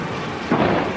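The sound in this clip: Heavy rain falls by a street as a dense, steady hiss, with a low rumble swelling midway through the second.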